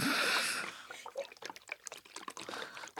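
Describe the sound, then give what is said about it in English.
Green juice of apple, watermelon, lemon and kale being poured: a steady rushing pour at first, then a run of irregular splashy trickles and dribbles. “That is the sound of green juice. Cheers. Cheers. That green juice, it's full of apple and watermelon, lemon and some kale.”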